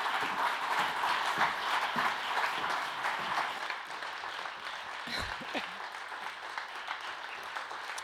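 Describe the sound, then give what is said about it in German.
Audience applause at a live event, dense steady clapping from a crowd that fills the whole clip, easing slightly about halfway through, with no voices over it. “Hört mal ganz kurz auf zu applaudieren, damit ihr gleich weiter applaudieren könnt”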